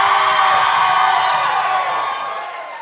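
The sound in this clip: Live audience cheering and whooping inside the Colony House in Newport, a dense sustained roar of many voices that holds steady, then gradually fades over the final second.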